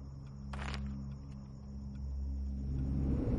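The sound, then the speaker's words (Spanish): A car accelerates on a road where police cars form a barrier, its low engine rumble running steadily and swelling louder toward the end. “Cortés acelera.”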